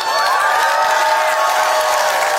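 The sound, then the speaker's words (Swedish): An audience at Almedalen cheers, many voices blending into a steady, bright, held tone that slowly eases in pitch. “Och så ett stort jubel för övriga som hade kommit hit en vecka för tidigt.”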